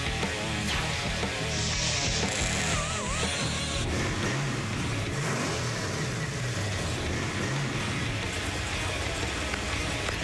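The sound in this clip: A motorcycle engine at a custom bike shop runs steadily, giving a loud, continuous rumble throughout with slight shifts in intensity and no break or pause.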